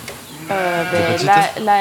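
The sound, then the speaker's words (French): Sheep bleat on a dairy sheep farm with hundreds of milking ewes that are feeding: a few loud, wavering, nasal bleats follow one another closely. “Elles mangent? Ouais, elles mangent. Combien de brebis vous avez? Là, il y a 420 laitières, donc les adultes, ouais, qui ont plus de 1 an.”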